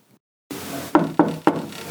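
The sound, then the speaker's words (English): Three sharp knocks on a bedroom door early in the morning, quick and evenly spaced, over a steady background hiss. “here are a couple of recent burning questions that necessitated an early morning knock on my bedroom door.”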